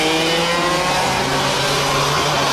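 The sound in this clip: A race car on a circuit accelerates through a corner with a loud, continuous engine roar. The rich harmonic drone holds a steady pitch throughout the short stretch, with no voices.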